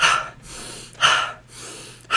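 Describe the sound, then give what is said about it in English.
Forceful activation breathing, a breathwork pattern with a longer inhale and shorter exhale: a few sharp, loud airy breath bursts repeat at a steady pace, each followed by a softer, quieter stretch of breath. “if we want to do activation breath, so activate our body, sympathetic nervous system, bring energy to our body, we do a longer inhale and a shorter exhale. So it looks like...”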